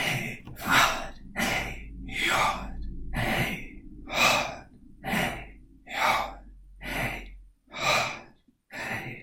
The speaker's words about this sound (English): When you breathe out and breathe in and breathe out and breathe in